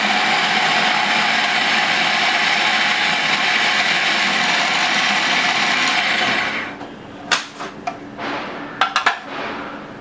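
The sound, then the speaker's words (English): A blender blitzes chickpeas in a loud, steady, high whirring roar for about six seconds. It then cuts off, leaving a few scattered knocks and clicks. “I really don't like the quality of canned chickpeas, so I'm just putting in half for now, and we're going to be using 250 grams in total of chickpeas. And we just give this a blitz.”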